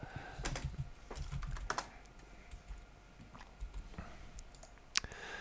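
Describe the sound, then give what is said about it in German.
Typing on a computer keyboard to run a web search, with quiet, irregular key clicks in short bursts and pauses, alone and faint. “Äh, Moment, das kann man auch schnell googeln.”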